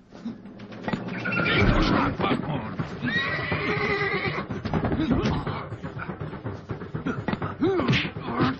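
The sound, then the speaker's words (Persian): Horses neighing and whinnying with clip-clop hoofbeats, the loud calls rising and falling over a busy mix, while people talk in the background. “داریم یابوهای قشنگ شما رو تماشا میکنیم جناب پروکراتور اعظم.”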